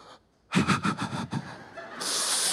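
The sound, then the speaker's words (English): A voice imitates a deep, calming breath in and out, with a pulsing breathy rush followed by a steady airy hiss. “Take a deep breath in and breathe out.”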